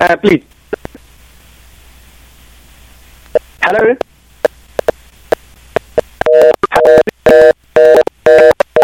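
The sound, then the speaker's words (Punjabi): Telephone line tones after a phone call drops: brief voice fragments and scattered clicks over faint hiss, then a loud run of rapid, repeated beeps. “Call drop ਹੋ ਗਈ ਜੀ”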